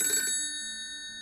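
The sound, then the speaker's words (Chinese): A telephone rings in a detective agency office, one brief bright bell burst whose steady ringing tones linger and slowly fade. “等一下，我先去接电话。”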